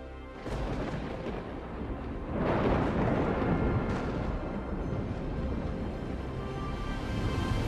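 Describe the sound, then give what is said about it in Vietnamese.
Thunder-like booming of lightning bolts striking down from dark clouds: a continuous, heavy, loud rumble that swells sharply after a couple of seconds and stays dense and roaring to the end. “từ trong đám mây đen liên tiếp tỏa ra lôi phạt, đùng đùng đánh xuống.”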